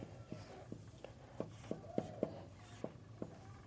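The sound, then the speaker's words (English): Pen or marker writing out an outline: soft, scratchy strokes broken by a series of sharp little taps, all quiet and with no talking. “And I'm also going to write down the outline.”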